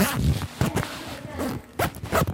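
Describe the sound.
The zipper of a small backpack is pulled with a jerk, giving several quick rasping bursts of zipping at an uneven rhythm, fairly loud and close.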